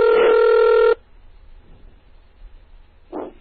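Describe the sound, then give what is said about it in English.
A telephone being dialed from a computer through terminal software: a loud, steady, buzzy dialing tone lasting about a second cuts off abruptly into near silence, followed by a brief faint burst near the end. “I dialed up into this phone using Hyper Terminal.”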